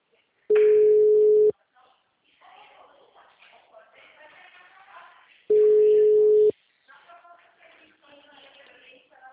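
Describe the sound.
Telephone call tones play as two loud, steady beeps at a single pitch, each lasting about a second, with several seconds of talk between them as the call is routed to voicemail.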